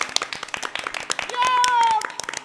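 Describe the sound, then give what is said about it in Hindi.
Scattered, sharp claps from an audience welcoming performers on stage, irregular bursts of hand strikes with voices mixed in over the clapping. “तो इनका तालियों के साथ स्वागत करें”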